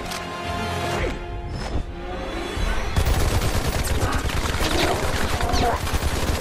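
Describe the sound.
Rapid gunfire in a film scene: a dense fusillade of sharp, overlapping shots. It erupts after a quieter opening with a few scattered impacts, then stays loud and continuous to the end.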